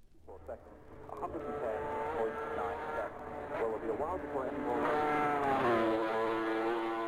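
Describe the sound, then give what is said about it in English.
A racing motorcycle engine roars as the bike descends a hill on a road race lap, loud and sustained, with its pitch surging and dipping a few times through the run. “This second lap by Mick Grant was destined to be the fastest ever. Let's follow him. Firstly, descending Bray Hill.”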